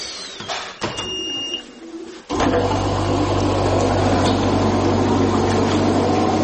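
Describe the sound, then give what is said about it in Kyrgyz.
Steady whirring hum and airy hiss from a breathing machine with a water humidifier. It starts abruptly after a few light clicks and then runs loud and continuous to the end. “Аппараттын суусун алмаштырып турабыз күнүнө. Кнопкасын басып иштейт. Ана муну менен дем алат.”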